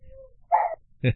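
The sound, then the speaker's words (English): Two dogs sound off together in a short duet: two brief bark-like yips, the second sharper, after a faint thin whine. “Now we're going to have a duet, dog duet here”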